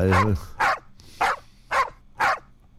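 Dogs from a released pack bark in five sharp, loud bursts at an even pace, each separated by a short gap, with no talking.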